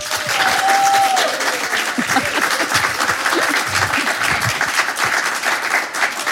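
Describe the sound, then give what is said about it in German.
Roaring applause from a studio audience welcoming two guests onto a radio show, a thick continuous wash of many hands clapping at a steady, loud level, with a brief high whistle near the start. “Und ich bitte Sie beide mit einem tosenden Applaus bei mir zu begrüßen.”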